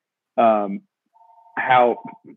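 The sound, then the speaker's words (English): A home telephone ringing: a faint, steady electronic ring tone lasting about a second, partly under talk. “Is that a home phone?”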